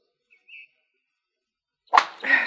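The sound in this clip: A golf club strikes a ball during a round of golf: one sharp crack followed by a brief airy swish, with a faint short whistle earlier in the quiet.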